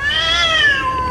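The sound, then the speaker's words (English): A cat yowls on a front lawn at night, one of two cats heard there. One continuous, drawn-out, high-pitched wail with rich harmonics rises slightly, then slowly sinks in pitch, heard alone without talk. “Okay, so I had this noise on my front lawn the other night, two cats.”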